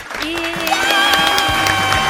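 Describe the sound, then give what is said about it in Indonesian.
Children clap their hands together at a storytelling event, a dense, steady round of applause that holds at an even level throughout. “coba yang suka mendengarkan dongeng boleh bertepuk tangan.”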